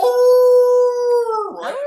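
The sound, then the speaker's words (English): A person imitates a wolf howl with a long, steady, voiced tone that sags slightly in pitch, then drops and breaks off into a rougher, noisy tail near the end. “and then I teach them howling and growling”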